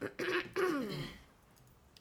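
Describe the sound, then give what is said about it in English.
A person clears their throat in two rough bursts, the second longer and sliding downward in pitch, followed by near silence. The sound is fairly faint. “I'm so sorry that I have to keep clearing my throat.”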